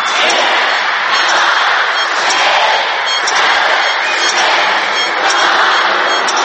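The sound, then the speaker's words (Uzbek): Fireworks and crowds greet the 2011 New Year in a loud, dense, unbroken roar of crackle and cheering, with a few sharp pops standing out. “Dunyo ahli 2011 yilni mushakbozliklar bilan kutib olmoqda.”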